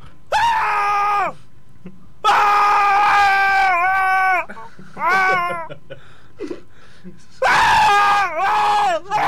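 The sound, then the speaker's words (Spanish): A man screaming as a sound effect: four long, loud, high-pitched wailing screams with wavering pitch, separated by short pauses. “también tengo el sonido de un gilipollas gritando.”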